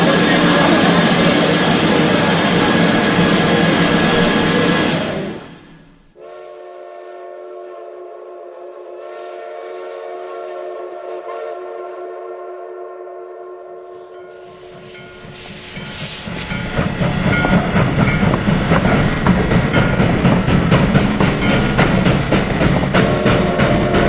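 A steam train approaches in a Mexican Revolution–era scene: loud rumbling and hissing, then a long, steady whistle, then heavier clattering and rumble that builds again toward the end.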